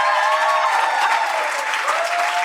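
Audience applause welcoming a guest to the stage: loud, dense clapping that holds steady without a break.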